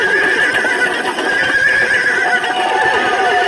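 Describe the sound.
A horse whinnies loudly and continuously for several seconds, a bright, strained cry with steady harmonic tones, heard alone without speech.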